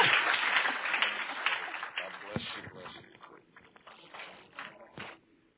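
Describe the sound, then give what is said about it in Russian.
An audience applauds to welcome a speaker with a dense burst of clapping that starts strong and gradually fades away, while voices talk over it. “Хорошо, давайте бурными аплодисментами поприветствуем доктор Джеймс Малони.”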